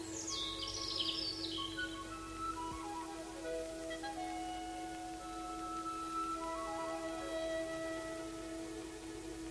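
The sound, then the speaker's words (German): A small bird chirps in a large hickory tree overlooking a square, giving a few quick high chirps early on, followed by thin whistled tones that slide downward over a steady low hum. “Irgendwo in dieser Leere zwitscherte ein kleiner Vogel in dem großen Hickorybaum, der auf dem Platz hinausragte.”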